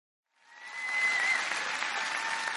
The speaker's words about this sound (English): I want you, when Beth walks up to the stage, to put your hands together and give them the greatest and the biggest Faith Church welcome.